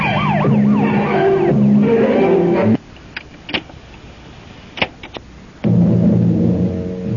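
A loud police car siren wails in rising and falling sweeps as the car speeds off, then cuts off abruptly, leaving a quiet stretch with a few sharp clicks before a low, steady tone sets in.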